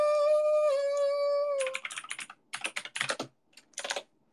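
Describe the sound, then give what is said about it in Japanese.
Rapid clattering keystrokes on a high-performance computer keyboard come in several quick bursts with short pauses, following a sustained steady tone at the start. “キーボードさ、こうやってカタカタカタってやってるとさ、このキーボードの性能が良すぎてさ”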